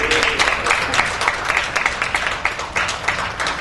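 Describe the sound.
Steady, dense applause from a group clapping for someone being introduced, even in loudness with many overlapping claps throughout and no clear break.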